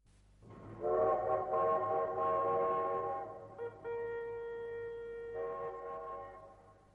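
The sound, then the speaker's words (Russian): A train whistle sounds at a small railway station where a military train stands. It is a sustained, harmonic-rich tone that changes pitch partway through and then holds steady over a low rumble. “Небольшая железнодорожная станция, воинский эшелон.”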